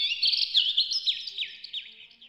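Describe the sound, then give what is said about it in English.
Birds chirping in a forest: a quick run of high, bright tweets and trilling notes, closely spaced and fluttering, fairly faint and gradually thinning out toward the end, with no voices. “I love being in the forest and hearing the birds chirping.”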